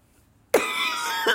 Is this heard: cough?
yes

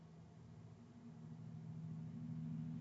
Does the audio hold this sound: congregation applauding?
no

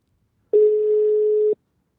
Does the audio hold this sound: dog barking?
no

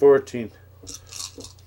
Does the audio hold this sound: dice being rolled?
yes

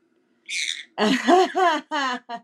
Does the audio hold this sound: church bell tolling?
no

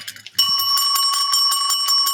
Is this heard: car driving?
no

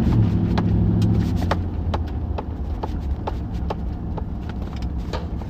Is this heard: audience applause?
no

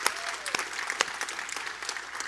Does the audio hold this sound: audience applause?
yes

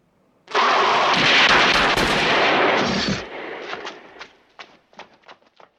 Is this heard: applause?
no

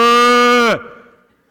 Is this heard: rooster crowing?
no

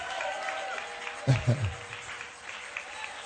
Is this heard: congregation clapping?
yes

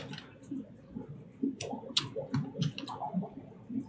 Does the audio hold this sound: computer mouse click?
yes

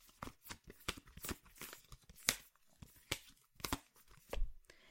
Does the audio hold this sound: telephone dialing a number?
no

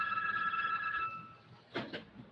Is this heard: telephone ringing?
yes

